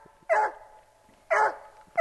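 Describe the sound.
A hunting dog barks on rural land outside a small mountain town in Idaho's Clearwater Mountains. Two sharp, loud barks about a second apart, with a third starting at the very end; faint whining sounds between them.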